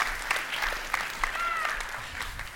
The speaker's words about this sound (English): give Hunter another round of applause